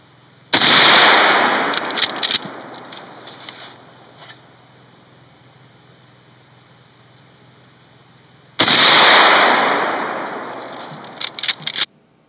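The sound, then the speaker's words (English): Two loud gunshots from a Marlin lever-action rifle fired outdoors, each a sharp blast trailing off in a long decaying rumble, followed by a brief cluster of quick clicks. “This is a gentleman firing a Marlin lever action rifle outside.”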